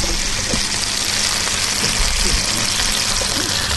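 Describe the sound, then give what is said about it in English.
Plantain frying gives off a steady, dense sizzling hiss over a low rumble that stays constant from start to finish. “What's clip number one? What's being fried? I don't know. Plantain.”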